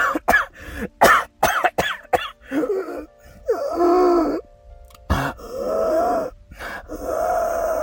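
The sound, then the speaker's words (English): An asthmatic person deliberately coughs and wheezes: a few sharp, hacking coughs at the start give way to strained, tonal wheezing breaths and throaty groans, loud and alone. “How in the hell do you cough and wheeze like that and not hurt yourself?”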